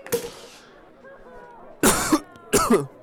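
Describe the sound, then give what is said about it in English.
A person coughs during a casual conversation over drinks: a brief burst at the start, then two loud, rough coughs in quick succession near the end. “See, that cough? You've been coughing a lot this episode.”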